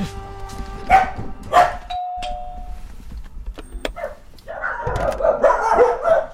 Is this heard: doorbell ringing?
yes

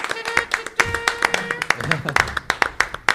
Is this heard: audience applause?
yes

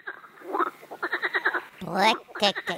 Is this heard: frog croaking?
yes

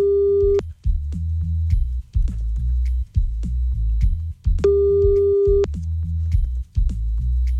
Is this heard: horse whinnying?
no

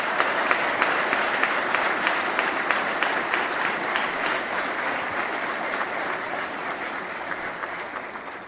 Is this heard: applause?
yes

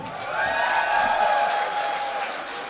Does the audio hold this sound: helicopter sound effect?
no

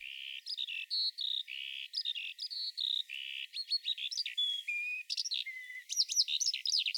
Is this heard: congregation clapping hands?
no

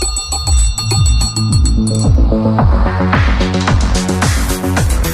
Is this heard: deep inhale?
no

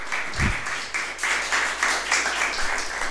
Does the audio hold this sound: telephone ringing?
no

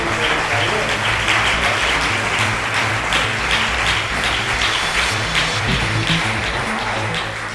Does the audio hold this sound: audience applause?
yes

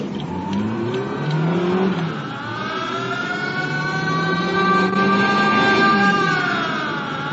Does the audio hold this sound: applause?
no

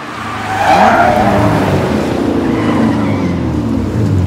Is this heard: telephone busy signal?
no

